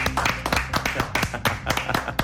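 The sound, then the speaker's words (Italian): Audience applause at an Italian talk event, with many distinct, punchy claps in a busy, uneven patter that stays fairly strong throughout. “Applauso.”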